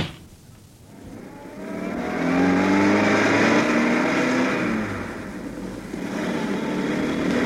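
A car pulling away at full throttle, its engine roaring loudly with the note climbing as it accelerates, then holding a steady, strained drone.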